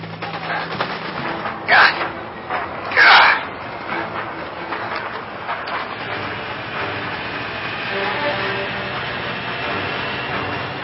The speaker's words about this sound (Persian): برو برو عجله کن بترم سوار قطار شید سوار قطار شید